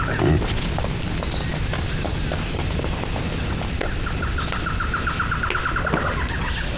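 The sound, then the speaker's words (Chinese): A wild boar squeals: a thin, rapid run of pulsed squeals midway through, fairly faint, over steady rustling and scuffling noise. “有野猪！ 快，赶紧马上抓住！”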